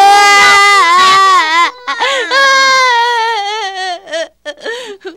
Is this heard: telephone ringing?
no